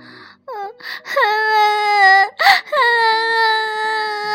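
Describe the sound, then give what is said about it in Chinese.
A storyteller's voice imitates a little mouse crying, with short whimpering sobs followed by two long, high, drawn-out wails separated by a quick gasping breath, loud and alone. “小老鼠吓了一跳，委屈的哭了”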